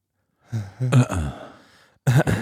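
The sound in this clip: A voice imitates the Netflix intro using only sighs: a run of breathy, voiced sighing sounds that fade out, then two short, louder bursts close together at the end.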